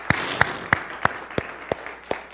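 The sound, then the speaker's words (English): Seven evenly spaced claps ring out in a steady rhythm as a guest is welcomed onto a church stage, each clap crisp and moderately loud over a soft background hum. “Can we do that this morning? Can you give Michael a big hand?”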